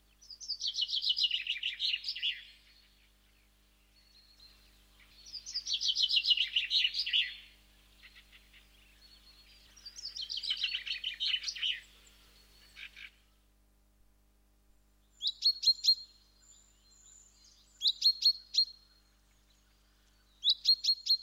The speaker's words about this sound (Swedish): Ja, men vi börjar med att lyssna på bofinken.